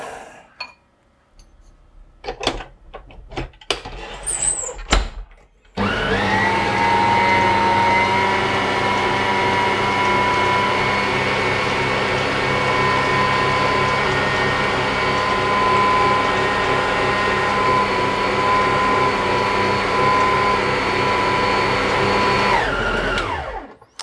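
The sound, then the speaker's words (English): An electric mixer beats an icing mixture with a loud, steady whirring motor hum that runs unbroken for about seventeen seconds. It is preceded by a few seconds of clattering handling sounds, and no one talks. “Just going to give that a bit of a beat with the mixer.”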